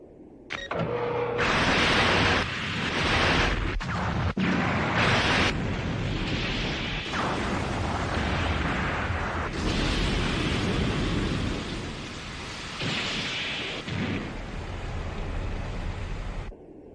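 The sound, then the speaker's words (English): Laser weapons firing at Godzilla: loud, dense roaring and crackling bursts of noise that surge and cut off sharply, running almost without pause, with no talk. “All lasers are armed, sir. Stand by. Fire.”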